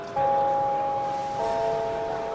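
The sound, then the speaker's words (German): A gong chime rings to open a flower auction: a clear, sustained electronic-sounding tone, then a second lower tone joins partway and both hold steadily without fading. “Der Gong läutet jede Auktion ein.”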